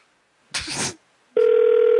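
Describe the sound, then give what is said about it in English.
A telephone dial tone follows a brief rustling burst: the steady, loud tone starts abruptly and holds unchanged to the end. “I did dial it wrong. I see the digit I got wrong, but that was good. I'll try them again.”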